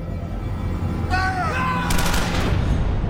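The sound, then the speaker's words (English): Firing-squad gunfire in a scene from X-Men Origins: Wolverine, a short burst of several sharp, rapid shots that cuts in after a brief tonal passage. “The brothers face a firing squad.”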